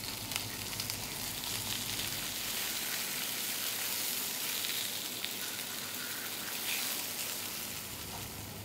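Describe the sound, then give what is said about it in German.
Zucchini slices, marinated with herbs, oil and pepper, sizzle steadily in a frying pan, giving an even, fairly quiet hiss with faint crackles throughout and no voices. “Den letzten Schliff bekommen die Zucchinischeiben jedoch beim Braten.”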